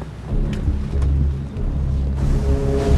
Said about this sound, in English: A large boat is motoring across the night water.